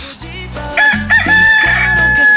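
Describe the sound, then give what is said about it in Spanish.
A pet rooster crows loudly in a long, strained, high call that breaks into several rough pieces, with steady low tones underneath. “Ah, qué chulo canta mi gallo, ¿eh? Ese sí es gallo, caray.”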